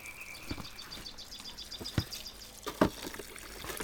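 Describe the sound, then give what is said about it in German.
Water pours, trickles and splashes as someone washes outdoors in sunshine, a faint running flow with a few sharper splashes standing out. “Ich stehe im Sonnenlicht und wasche.”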